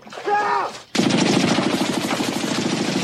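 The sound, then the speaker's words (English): Automatic gunfire from a film scene set in the Vietnam jungle. A short harmonic tone comes first, then a continuous, loud, rapid rattle of shots starts abruptly and carries on to the end. “One of the scenes is Vic Morrow's running through the jungle, coming through the greenery of Vietnam, which I filled in. And he is being shot at.”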